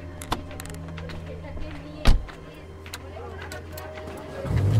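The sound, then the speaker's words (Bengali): A car engine runs with a steady low hum, broken by a few sharp clicks and one louder thump. The rumble builds toward the end as the car pulls away. “এরপর ও গাড়ি start করে এগিয়ে যায় অফিসের পথে”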